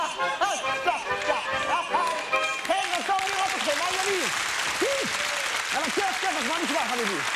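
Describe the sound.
Clapping from a crowd at a lively group gathering thickens into dense, continuous applause from midway. Voices call out and chant over it throughout.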